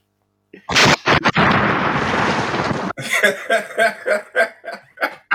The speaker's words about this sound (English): Drop the bomb.